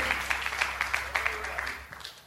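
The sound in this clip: A church audience clapping their hands, sharp claps in a steady, even rhythm, fairly quiet and fading somewhat toward the end.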